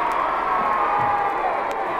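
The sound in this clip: A crowd cheers as the Queen arrives for a walkabout through Mansfield marketplace, a loud, steady roar of many voices that keeps an even intensity from start to finish.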